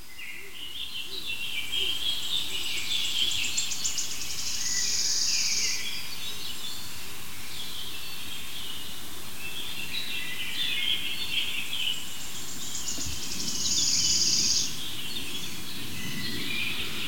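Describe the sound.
A bird calls and moves close to the microphone, making high, chirping calls over a steady noisy background, with two louder bursts of calling.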